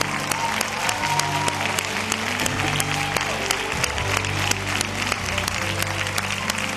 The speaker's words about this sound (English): Would you please welcome to the platform Gloria Copeland. Come on, give her a great hand,